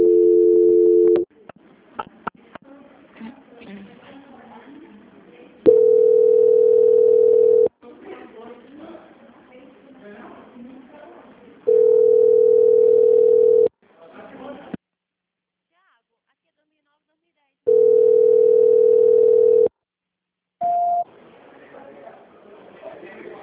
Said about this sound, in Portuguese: Não desliga. Só um minuto. Tudo bem. Transferência.